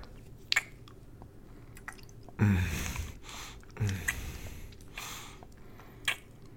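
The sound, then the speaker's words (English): Kissing: a few soft, wet, squishy smacks and brief lip pops with quiet stretches between them, without any talk. “Can you just always eat basil and mint before we kiss? You taste surreal.”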